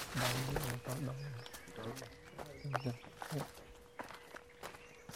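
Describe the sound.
Footsteps crunch along a difficult mountain track at the Preah Vihear massacre site, a few irregular steps of uneven loudness, with a voice talking over the first half.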